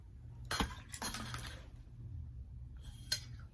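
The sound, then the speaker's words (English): A water bottle falls onto a closed laptop, making a few faint knocks and light clattering hits with short pauses between them. “My water bottle almost fell. No, it fell on my laptop, but it wasn't open.”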